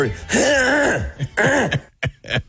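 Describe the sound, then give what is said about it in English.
Throat clearing while trying to record a voice text: a few rough, voiced, groan-like rasps, the first long and drawn out, then shorter bursts trailing off into brief final clears. “So that's me doing a voice text, and I can't get through it because my throat, I have to clear my throat.”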